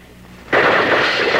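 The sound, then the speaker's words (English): Gunfire from the Hatfields attacking the McCoy house at night in the Hatfield–McCoy feud: a sudden, loud blast that swells into a dense, sustained roar of shots, with no voices. “When Randall McCoy did not appear, the Hatfields opened fire.”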